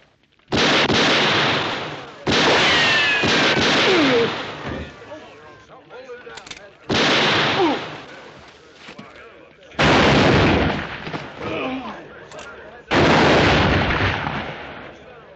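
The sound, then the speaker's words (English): Gunshots in a western shootout, five loud bursts of firing, each cracking in hard and then ringing away, separated by quieter gaps where faint voices can be heard. “That's enough shooting.”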